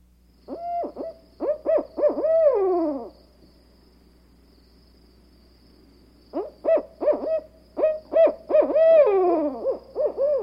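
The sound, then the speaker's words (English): Barred owl hooting in two rhythmic bursts of deep hoots separated by a pause. The first burst ends in a drawn-out, wavering call that falls in pitch. “Barred Owl.”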